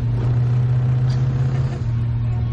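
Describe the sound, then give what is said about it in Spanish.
A coupe car pulls alongside on the road, its engine giving a steady, loud, low rumble throughout. “El coupé se pone a su altura. Los jóvenes que van en él les observan.”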